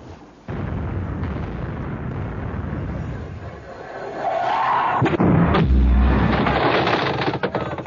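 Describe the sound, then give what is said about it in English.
Cannon fire from a Spanish frigate during a sea chase: a sudden loud onset that turns into a long, dense, rumbling roar, which grows heavier and louder in the second half. “that's a Spanish frigate firing at us, and those weren't warning shots.”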